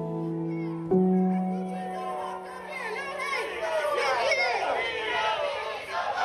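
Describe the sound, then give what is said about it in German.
A loud crowd shouts and chatters outside the Britannia Hotel in Britain, where people have gathered over the government's asylum and migration policy. The dense clamour of many voices continues throughout with no quiet gaps. “das klingt ja jetzt schon recht laut vor dem Britannia Hotel. Wie groß war denn der Menschenauflauf da wirklich?”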